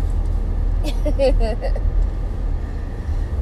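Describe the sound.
A car driving gives a steady, low engine rumble that continues throughout, and a voice speaks briefly over it partway through.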